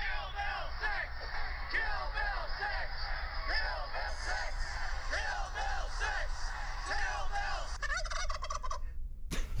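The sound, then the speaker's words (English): A live turkey at a Bill 6 protest rally gobbles many times in quick, warbling bursts over a steady crowd murmur, with voices in the background. “And that was an adorable turkey at the end there. And that's not a sound effect. That is an actual, real, live turkey that Ryan Jackson captured on audio and video at Thursday's rally.”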